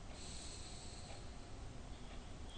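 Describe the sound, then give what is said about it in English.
A deep breath drawn in during a guided breathing meditation: a faint, steady airy rush that holds evenly for about two and a half seconds. “So we take another deep breath in.”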